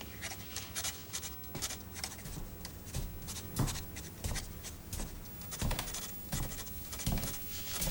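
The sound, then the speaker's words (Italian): A pen scratching on paper as a note is written: brisk, irregular scribbling strokes, steady and fairly faint, with no voices. “Intanto io scrivo un biglietto per la levatrice.”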